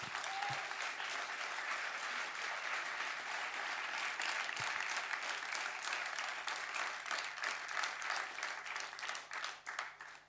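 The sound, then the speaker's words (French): An audience gives caregivers an ovation: dense, steady applause of many hands clapping continuously, thinning into scattered claps toward the end. “une petite ovation pour les soignants, c'est pas en trop.”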